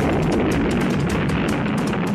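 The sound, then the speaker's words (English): A nuclear bomb explosion following a countdown in a political ad: a dense, sustained low roar that rumbles steadily at full strength for the whole stretch without fading. “little girl is pulling the petals off a daisy, and the countdown comes. 6, 8, 9. 3, 2, 1, the nuclear bomb.”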